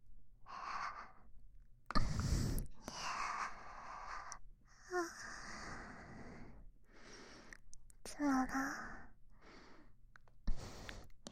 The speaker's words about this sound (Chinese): 在你耳边呼气，你的耳朵好红呀！